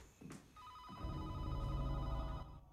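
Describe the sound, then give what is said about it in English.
A telephone rings in a house hall with a continuous trilling electronic tone that runs from about half a second in until near the end, above a low rumbling noise. “In the hall, she reaches the phone, but ignores it.”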